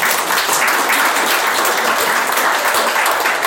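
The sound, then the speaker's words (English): A morning Bible study audience claps together in a dense, even patter that holds at a steady level throughout. “I want you to just get your hands together like this and get ready to clap. Okay? Get your hands ready and get ready to clap.”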